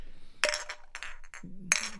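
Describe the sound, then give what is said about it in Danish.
Plastic cups clatter and click as they are handled while someone sets up for a party, giving several short, light knocks at uneven intervals over a quiet background. “Hvad du sidder og roder med? Er det, er det plastikkrus?”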